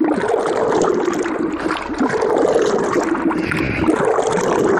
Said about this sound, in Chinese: 按比例加入清水，在搅拌桶中反复搅拌，最终化为细腻纸浆。